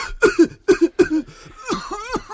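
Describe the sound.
A voice imitates the cough of a cigar smoker: a few short, throaty, voiced hacking bursts, then two longer, groaning rasps that sag in pitch.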